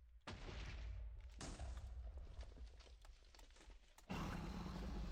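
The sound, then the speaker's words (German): Fire charges shot in a video game: three abrupt bursts, each followed by a sustained noisy roar, with the last burst louder and fuller than the first two. “Ich schieße Fire Charge.”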